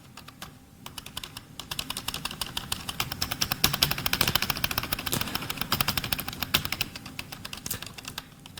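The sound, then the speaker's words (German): Rapid clatter of typing on a computer keyboard while entering commands in a text game, with many dense keystrokes in a quick, busy stream that stays fairly quiet throughout. “Ich warte mal, ich müsste dafür einen Zahlenwert tippen. Wenn ich jetzt 1 tippe, dann laufe ich.”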